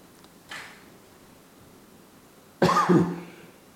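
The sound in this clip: Coughing from sinus irritation triggered by car air fresheners: a faint, short cough followed a couple of seconds later by a much louder, harsh cough, with quiet between them.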